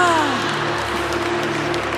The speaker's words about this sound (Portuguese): Aplauda essa certeza no teu coração.